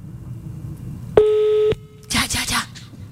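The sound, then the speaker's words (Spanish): A single steady telephone call tone lasting about half a second, clean and mid-pitched, followed by a voice speaking. “Listo. Va, está llamando.”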